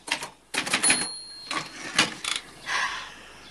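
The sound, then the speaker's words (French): Typewriter keys clack in irregular clusters of rapid strikes as a woman types in a film scene, with short pauses between the bursts. “Une femme de dos, les épaules nues, tape à la machine.”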